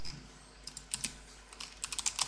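Keys clacking on a computer keyboard as someone types a search, a faint, irregular run of light clicks that comes in short bursts separated by brief pauses.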